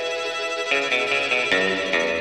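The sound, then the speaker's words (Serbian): A telephone ringing: a bright electronic ringtone of harmonic tones, repeating in a quick, steady pattern at an even, moderate volume. “Našega starog doktora Jana telefon zove s Kalemegdana.”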